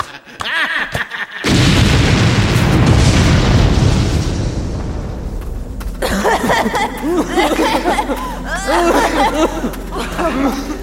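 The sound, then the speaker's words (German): An explosion blasts a mine shaft: a sudden loud boom swells into a heavy, sustained rumbling roar that lasts several seconds before easing, after which voices and scattered sounds follow. “Er hat den Schacht gesprengt.”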